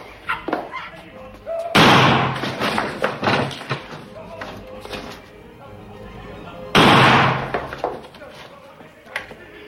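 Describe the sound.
Two loud, sudden cracks of an old rotten wooden crate breaking apart, sharp like gunshots, each burst followed by a short crumbling tail, with voices talking before and between them.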